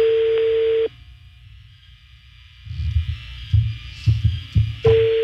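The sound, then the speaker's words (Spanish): Steady telephone line tone while a call is being dialed. A clear mid-pitched tone holds for under a second and cuts off, low muffled thumps follow, and the tone returns briefly at the end. “A ver, vamos a marcarlo otra vez. La 1 al aire, por favor, poquito.”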